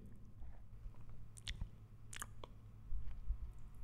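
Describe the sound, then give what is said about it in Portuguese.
Someone eating yogurt with coconut from a spoon, ASMR style: faint, wet chewing and squishy mouth sounds with a few sharp little clicks, no talking. “Estamos aqui de ASMR. Já yeah, mesmo. Um iogurte com coco.”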